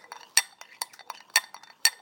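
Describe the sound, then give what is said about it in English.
A spoon stirring instant coffee in a cup, making four bright metallic clinks at a steady pace with softer taps and scrapes between them, all fairly faint. “I'm just stirring to make sure there's no lumps at the bottom of this. My common instant coffee.”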